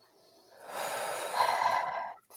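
A single long, deep breath taken as a group exercise in an online meeting, a soft, airy rush that swells and holds for under two seconds before cutting off.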